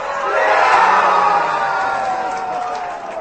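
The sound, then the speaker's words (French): Football supporters in a Prague beer garden cheer after the Netherlands' second goal against Slovakia. The brief burst of loud, mixed crowd cheering swells, then eases slightly. “Vous venez d'entendre les réactions après le deuxième but marqué par l'équipe orange dans le Rigrovistadi, surnommé Rigrac. Les supporters des deux équipes se côtoient et les cris de joie se mêlent aux”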